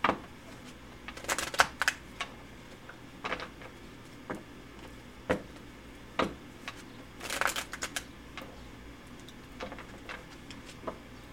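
Tarot cards being shuffled make a string of quick, crisp riffling and snapping bursts at an irregular rhythm, fairly faint against a quiet background.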